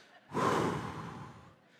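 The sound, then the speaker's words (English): Heavy breathing from a person winded after doing push-ups and dancing: a single loud, breathy gasp rushes in suddenly, holds for about a second, then trails off. “I'm catching my breath here because I've been doing push-ups and I've been dancing”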